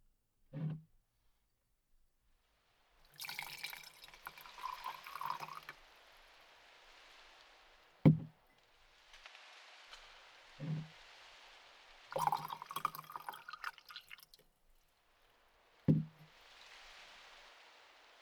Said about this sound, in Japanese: お茶の葉がびっくりしないように一旦お湯のみで冷ましてからお急須に移して。